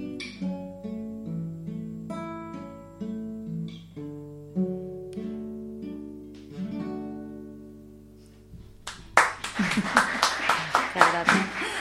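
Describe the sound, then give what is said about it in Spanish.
Studio audience applause bursts in after sung music fades, a loud, dense patter of many hands clapping over the final few seconds. “Tremendo el público en el estudio, se pone en pie a ovacionar.”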